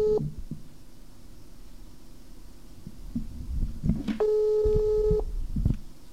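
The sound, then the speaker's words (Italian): Telephone ringback tone after dialing a number: a clipped beep at the start, then one steady, even tone of about a second later on, amid faint clicks and handling noise. “Adesso speriamo di aver incollato il numero giusto. E sentiamo.”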